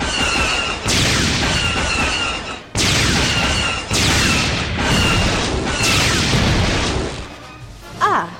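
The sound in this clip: Spaceship weapons fire on a planet in heavy booming blasts and crashing bursts. A rapid series of loud explosive volleys comes one after another, broken by brief pauses.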